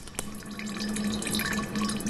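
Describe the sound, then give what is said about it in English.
Clear 150-proof liquid slowly fills an unlabeled jar, a steady gurgling trickle with a faint sustained ringing tone and a small click near the start. “An unlabeled jar slowly fills with 150-proof clear liquid.”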